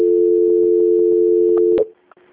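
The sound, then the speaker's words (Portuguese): A telephone line tone while a bank call is transferred and placed on hold, a loud steady single-pitched tone that cuts off abruptly near the end, leaving near silence. “fica um momento na linha, que a ligação vai ficar com aspecto de mudo ou numa musiquinha de espera, tá? Só um momento. Valeu. Transferência.”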